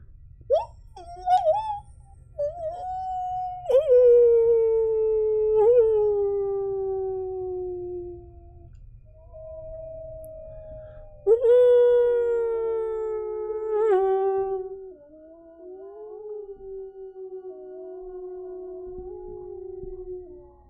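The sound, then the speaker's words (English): Wolves howling at daybreak: several long, mournful howls that slide downward in pitch, some voices overlapping in layered harmony, loud over a faint low rumble, with brief yips at the start. “What's that? Wolves? This far out of the frontier?”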